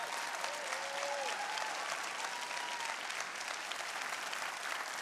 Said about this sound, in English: Can we make some noise? Let them hear it through the screens. Let them know we're behind them.